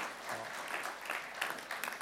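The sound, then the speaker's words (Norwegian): Audience applause at a church service: dense, steady clapping that stays fairly faint and continuous throughout, with no voices standing out. “Gi en applaus for det som skjer nå.”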